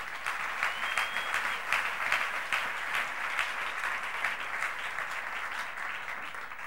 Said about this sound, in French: Est-ce qu'on peut acclamer Dieu?